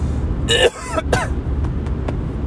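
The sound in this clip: A person clears a dry throat with a couple of short, raspy bursts, followed by a few faint clicks over a steady low background noise.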